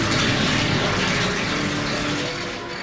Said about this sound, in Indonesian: Vino langsung berlari mengambil ember. Vino mengisi ember itu dengan air.